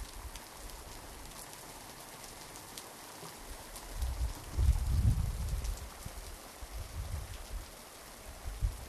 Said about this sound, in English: And now this is the sound of the rain.